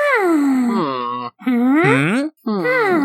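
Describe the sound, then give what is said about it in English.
People imitate the noises of Minecraft villagers with three nasal, moaning grunts. Each one is voiced and drawn out, and its pitch glides up and down, with short gaps between them. “Minecraft villager. We're just making Minecraft villager noises.”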